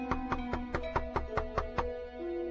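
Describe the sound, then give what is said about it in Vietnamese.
Soft knocking on a door late at night in a quiet house: a steady, evenly paced series of light raps over a faint sustained tonal background. “Tiếng gõ cửa rất đều đặn.”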